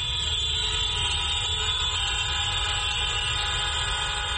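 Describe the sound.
Vehicle horns sound in one continuous, unbroken blare as a tribute during a morning moment of remembrance. The loud, buzzy, steady tone holds at an even level from start to finish, with no voices.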